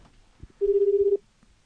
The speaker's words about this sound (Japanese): 今度、電話かけてみたいと思います。あ、なりましたね。